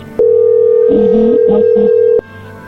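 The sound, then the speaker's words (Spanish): An incoming telephone call sounds as a steady, loud electronic tone lasting about two seconds, then cuts off abruptly, with some fainter wavering sounds layered over its middle. “A ver, entró ahí la llamada, contéstale tú.”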